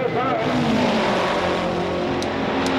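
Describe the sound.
Race car engines roar as cars accelerate off the start of a race at the green flag, a loud, dense rumble with sustained engine tones throughout.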